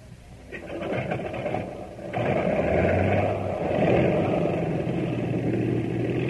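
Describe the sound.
An aircraft engine starting up as a radio drama sound effect: a rough, sputtering mechanical clatter that jumps at about two seconds to a louder, steady droning roar, with no voices.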